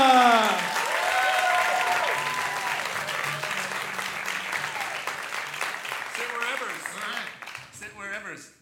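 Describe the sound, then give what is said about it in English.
Crowd applause for performers at a live comedy show at Largo, loud sustained clapping that gradually thins and fades, with voices emerging as it dies down. “Let's have a hand for Senor Abuelito.”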